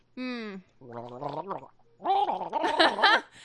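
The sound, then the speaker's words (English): A voice imitating someone gargling thick phlegm: three stretches of throaty, bubbling, voiced gurgling with a wavering pitch. No words are spoken. “He sounds just like that, except whatever you had in your mouth just now is lighter than the phlegm that he seems to be gargling”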